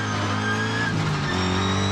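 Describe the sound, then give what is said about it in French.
A car engine drones loud and steady as the driver accelerates and the car slides into a drift on a loose dirt road. The car has no ABS and its tyres lock briefly. The low, layered engine tone holds throughout. “un peu gros bruit de boîte, hop, j'accélère, la caisse part en drift direct.”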